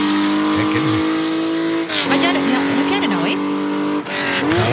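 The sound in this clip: A Porsche 911 RSR racing engine revs loud and high in a sustained, harmonic-rich whine, dropping briefly twice before the pitch climbs again.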